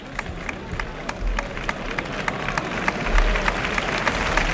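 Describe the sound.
A bullfight audience applauds to encourage the matador after his sword thrust strikes bone. Scattered claps rise from a continuous crowd murmur and swell slightly toward the end.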